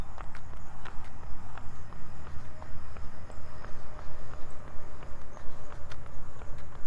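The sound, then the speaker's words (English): Running footsteps of a jogger out for a run, many steady rhythmic footfalls at a brisk, even pace over faint background noise. “And I'm out for a run.”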